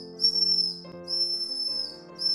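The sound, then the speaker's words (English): A captain's whistle being blown in three shrill, sustained blasts, the last one cut off, over steady low tones. “Captain Shotover blows his whistle.”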